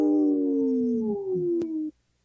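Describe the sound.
A wolf howls in one sustained, steady call lasting nearly two seconds. The tone is clear and slightly falling in pitch, and it cuts off abruptly into silence.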